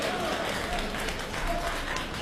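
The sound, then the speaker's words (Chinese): An audience applauding at a Beijing traditional opera and folk-art performance: continuous, even clapping that holds at a steady level for a couple of seconds. “大家鼓掌，再来一段。”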